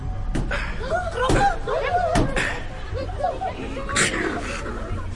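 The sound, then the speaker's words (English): Bronze panels on a pedestal are knocked on, giving a few sharp, irregularly spaced metallic raps. Voices chatter and laugh between and under the knocks. “as I continued to knock on the bronze panels”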